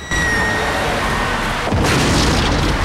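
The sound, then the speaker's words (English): A fireball of hot rock explodes on landing on the pavement, heard as a loud steady roar that swells into a heavier rushing burst partway through and keeps going. “Suddenly, a fiery ball of hot rock flies from the smoke like a comet and lands in a ball of flame on the pavement nearby.”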